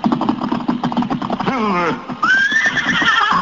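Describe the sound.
The horse Silver from the Lone Ranger radio show whinnies, first with a falling neigh and then with a high, shrill whinny, loud and close.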